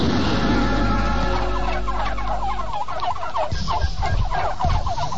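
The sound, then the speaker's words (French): Turkeys gobbling in loud, warbling bursts that continue throughout, with a low rumble underneath during the first half. “Oh, les dindons, vous avez vu la trouille aussi.”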